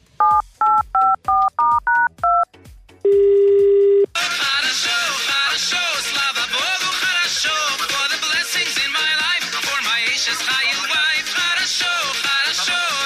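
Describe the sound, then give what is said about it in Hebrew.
Telephone dialing tones as a number is keyed in: a quick run of short, evenly spaced touch-tone beeps, a longer steady tone, then dense continuous sound that carries on to the end. “הנה אנחנו מחייגים.”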